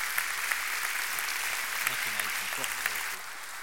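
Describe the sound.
Steady, dense applause from an audience welcoming a preacher to a church service, with voices mixed in underneath.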